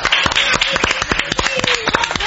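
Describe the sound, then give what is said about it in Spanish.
A short burst of applause with brisk, fairly sparse claps at steady loudness. “Un aplauso a Vital Susi, que no está aquí presente.”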